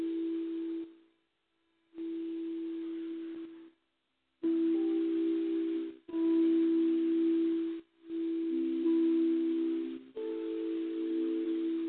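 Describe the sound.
Sustained meditation tones for the chakras: six steady, humming pitched tones, each held for a second or two and separated by brief silent gaps, with the pitch shifting from one tone to the next.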